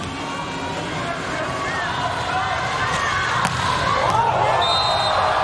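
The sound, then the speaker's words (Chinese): A volleyball serve from the Japanese side struck for a direct ace in a match, with a few sharp ball impacts cutting through steady crowd noise while a commentator talks. “ace 球，发球直接得分。”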